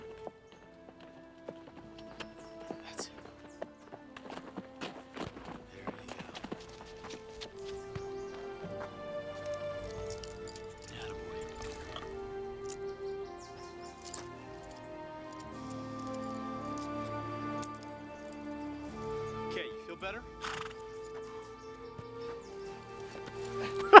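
Horse hooves clip-clop in many quiet, steady beats. Soft melodic music plays alongside the hoofbeats throughout.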